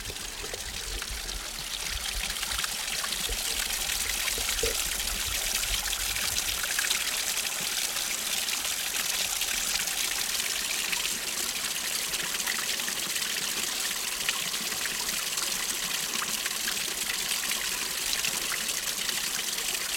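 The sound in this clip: An unspoilt stream flows through a Peak District valley with a steady, full rush of water that stays even and unbroken throughout, with no voices.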